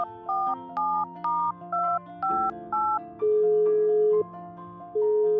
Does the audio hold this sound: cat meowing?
no

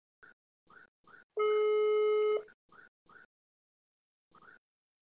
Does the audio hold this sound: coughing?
no

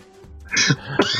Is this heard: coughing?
yes

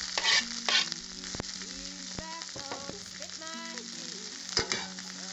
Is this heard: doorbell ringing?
no

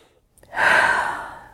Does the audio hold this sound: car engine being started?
no

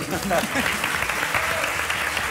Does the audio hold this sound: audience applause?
yes

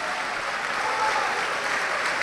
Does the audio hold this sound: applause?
yes

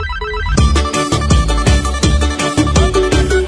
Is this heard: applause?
no

